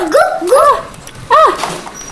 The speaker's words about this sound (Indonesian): Ih ada anjing galak ya. Siapa sih anjing galaknya? Lagi jagain siapa sih anjing? Anjingnya lagi jagain siapa sih?